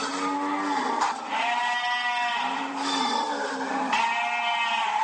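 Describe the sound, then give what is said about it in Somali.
Livestock bleating at a slaughterhouse in Djibouti: many overlapping, wavering bleats in a steady, dense chorus with no pause. “marka xoolaha laga soo saaro gegada amba saylada xoolaha waxaa loo soo gudbiyaa xarunta dabaaxadda lagu qalo xoolaha ee ku taalla magaalada jabuuti”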